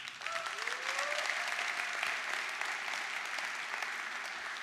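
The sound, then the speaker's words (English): Applause from a church audience welcoming a pastor to the front: dense, steady clapping fills the whole stretch at an even loudness, with a faint tonal whistle drifting through it early on. “So Christ the King, let's put our hands together for newlywed, as well as middle school pastor, as well as a man who loves Jesus very, very deeply.”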